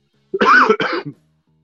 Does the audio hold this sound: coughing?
yes